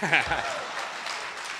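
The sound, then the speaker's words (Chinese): Audience applause right after a short traditional song at a live Beijing crosstalk comedy show: a steady, dense wash of clapping that holds at even loudness, with a voice briefly audible at the very start. “我一唱完你们就拍、 啊、 鼓掌不是不可以”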